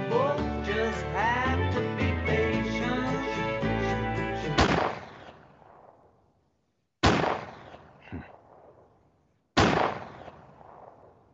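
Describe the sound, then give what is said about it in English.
Four recorded gunshots, sharp loud reports with trailing decay; the first cuts off a passage of music, and the rest follow a couple of seconds apart, the third noticeably fainter. “It was four friggin' shots.”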